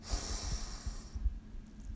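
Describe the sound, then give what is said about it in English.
A deep breath drawn in and let out during a guided breathing exercise, a soft steady airy hiss lasting about a second before it fades. “And our third and final breath together. Breathe in”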